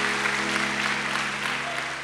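Congregation applause in a church service, a steady, even stream of clapping over a sustained low tone that lasts throughout.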